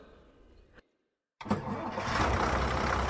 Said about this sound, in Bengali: বাসের মাথায় motor cycle চড়ে গেছে দুবার হর্ন দিয়ে ডিলাক্স বাস রওনা দিয়ে দিল